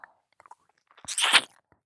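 Crunchy mouth sounds imitate biting and chewing an ear: a few tiny wet clicks, then one crisp crunching burst lasting about a third of a second, alone with no talk.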